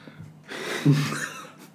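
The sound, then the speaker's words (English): A person takes a deep breath before reading aloud, a breathy rush of about a second with a brief voiced catch in the middle, alone and fairly soft. “You always take a deep breath before you're about to read something really shit.”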